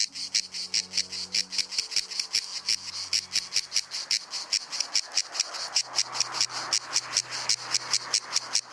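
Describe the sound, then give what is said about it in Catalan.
Cicada (Cicada orni) sings in the summer heat of Menorca's woods and fields, a loud, steady, rhythmic buzz made of many rapid pulses repeating evenly throughout, with no voices. “La xigala és un insecte estival per excel·lència. De nom científic Cicada orni, és l'únic representant del seu gènere i família a les Illes Balears.”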